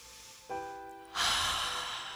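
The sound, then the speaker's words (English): A deep breath drawn in and released during a guided meditation. A soft steady tone sounds first, then a loud, sustained airy rush of breath fills the second half. “take a deep breath in.”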